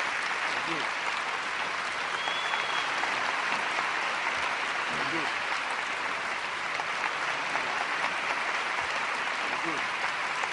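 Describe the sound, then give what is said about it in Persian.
Audience applauding for about ten seconds at an event honouring artists: dense, continuous clapping from many hands holds at an even, fairly loud level throughout, with no clear break. “از سر جاتون بلند شید و 10 ثانیه فقط دست بزنید همه با هم لطفا.”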